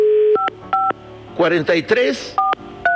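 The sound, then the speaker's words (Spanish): Telephone keypad DTMF tones sound as a call is placed: a steady tone first, then two short dual-pitch beeps, a stretch of talking, and two more beeps to close. “A ver, vamos a marcarle a Anita. Aquí está el teléfono,”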